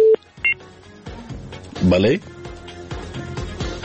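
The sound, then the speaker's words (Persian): Telephone tones as the next call is connected: a couple of short, high electronic beeps at the very start, followed by voices talking. “میریم تماس بعدی را وصل میسازم، بشنیم کدام از ما هست.”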